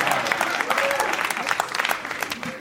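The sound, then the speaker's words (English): A crowd claps and cheers in a dense, continuous burst of applause, with scattered voices rising over the patter. “I was going to give these chips to the crowd until they fucking cheered for Hook.”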